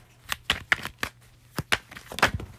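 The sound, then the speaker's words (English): Tarot cards being shuffled and handled: a quick series of crisp, papery flicks and riffles in an uneven rhythm, moderately soft, with no talking. “So let me just get a few more cards.”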